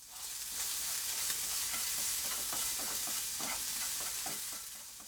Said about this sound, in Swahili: Kisha kaanga kamba kwenye moto wa chini hadi wabadilike rangi ya maziwa.